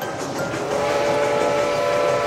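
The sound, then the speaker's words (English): A miniature steam train's whistle blows a steady, sustained tone over rumbling, hissing rail noise as the train arrives at an amusement park, holding for about two seconds. “Oh, here comes Mr. Walt Disney now on the miniature steam train.”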